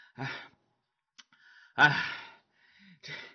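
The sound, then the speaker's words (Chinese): A storyteller's voice imitates the tired, panting breaths of two characters worn out from scolding: three breathy, sighing exhalations with pauses between them. “骂了多时，这俩人呢也累了，也骂够了，直喘呢”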